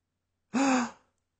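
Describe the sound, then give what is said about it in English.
A woman's sharp gasp: one quick, loud intake of breath lasting about half a second, heard alone with no talk. “She drew in her breath sharply, as one whose doubts are resolved.”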